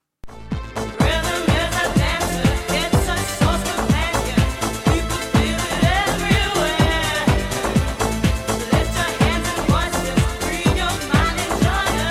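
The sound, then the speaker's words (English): A 1990s dance track plays loud and continuous, with a steady, driving kick-drum beat under dense layers of bright synthesizer sound. “It's one of those 90s dance tracks that has survived very, very well.”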